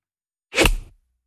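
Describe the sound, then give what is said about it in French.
A golf ball struck by a golf club makes a single quick, airy swoosh that swells and fades within half a second, heard alone in silence. “c'est le bruit d'une balle de golf qui est frappée par un club de golf”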